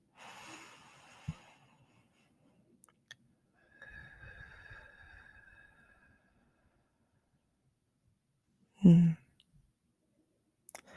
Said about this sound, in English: Inhale. And exhale. One more breath.